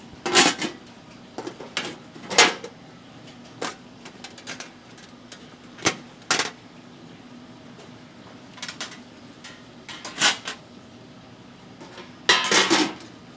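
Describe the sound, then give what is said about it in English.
Lids clatter as they are lifted off and set back onto food containers holding side dishes such as mac and cheese, baked beans and collard greens. Many sharp plastic clicks and rattles come in irregular bursts, with no talk. “would you mind just taking the lids off and putting them back on and just telling me what's in each one of these? Actually, I'll just get the sounds of the lids first.”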